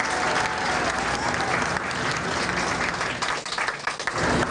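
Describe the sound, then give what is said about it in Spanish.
Applause greeting visitors who arrived from Japan aboard an international peace boat, a steady, loud wash of crowd clapping that holds throughout without a break. “Un gran aplauso a estos compatriotas del mundo.”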